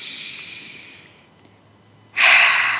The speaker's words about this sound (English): close your eyes, breathe in deeply.